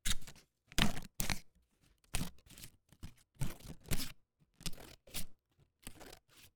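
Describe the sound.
Scissors cut through a paper sticky note, producing many crisp, papery snips and rustles in short irregular bursts, with quiet gaps between them and no talking.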